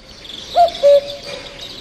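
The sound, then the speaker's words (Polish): A cuckoo calls once with its two-note cry: a short first note, then a lower, slightly longer second note. It stands out clearly over a faint, steady hiss. “Czyli... Kukuł. Jasne, kukułka.”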